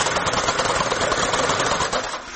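A knitting machine runs, working out lengths of knit fabric. Its steady, loud mechanical whir and rapid clatter continue without a break, easing slightly near the end.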